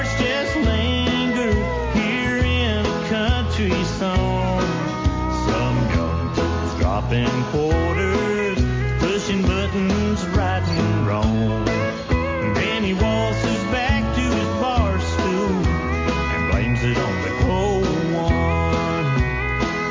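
A country-style song from a video game soundtrack plays steadily at full volume for the whole stretch, with a dense band mix and sung melodic vocal lines running throughout.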